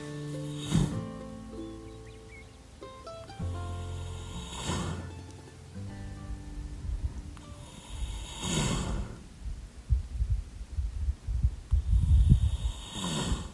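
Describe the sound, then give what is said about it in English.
Slow, soft breathing of a young mustang foal asleep with its head in a person's lap in a pasture: a few gentle airy exhalations spaced roughly four seconds apart, growing slightly rougher toward the end. “That's the sound of a sleeping baby Mustang who is snoozing quietly with his head in my lap in the middle of his pasture.”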